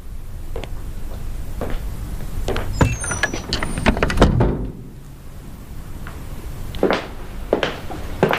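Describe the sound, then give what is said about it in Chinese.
A door closing amid a string of knocks, clicks and scrapes, building to a heavier thud midway, then a quieter spell before a few more sharp clunks near the end. “门关上。”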